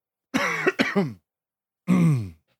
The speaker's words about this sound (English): so ominous having to cough in the middle of a podcast about a pandemic.